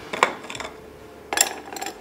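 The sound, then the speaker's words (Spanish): Ice cubes drop into a gin cocktail glass with bright, clattering clinks in two separate bursts of a few hard knocks each, with quiet gaps between and no voices. “Vamos a agregar más hielitos aquí.”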